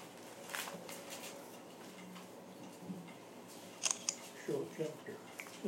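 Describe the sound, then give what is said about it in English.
Camera shutter clicking during a Bible study, a few quick, light clicks popping out while people talk throughout. “I really wish my camera would do right. It will not. Is it taking an accidental selfie?”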